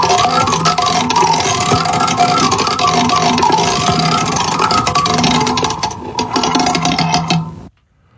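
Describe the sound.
A prize wheel spins with a rapid, continuous run of rattling clicks for several seconds. The clicks grow thinner near the end, then stop abruptly, leaving near silence.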